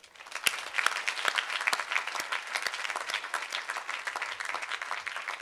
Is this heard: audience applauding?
yes